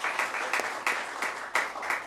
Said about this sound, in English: Let's give her some applause, please.